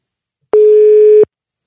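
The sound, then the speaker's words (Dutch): A single steady telephone tone as a call is placed, a clean, loud, mid-pitched beep lasting under a second, alone with silence before and after. “En we gaan hem bellen en eens kijken wat hij ervan vond en of hij nog goede inzichten heeft.”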